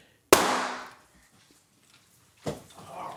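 Gunshots ring out on a street: a sharp, loud bang with a long decaying tail, then a second, softer bang about two seconds later.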